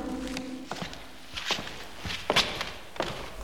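Footsteps walk closer to a painting: a few faint, evenly spaced steps in a steady walking rhythm over a low background hum.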